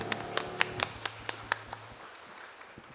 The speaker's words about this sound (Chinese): 我们将最大的掌声给我们的上帝，